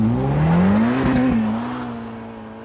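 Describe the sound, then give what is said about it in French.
A Ferrari supercar accelerating, with a loud whining engine note that climbs slightly, levels off and then gradually fades. “accélération de supercar. Ferrari.”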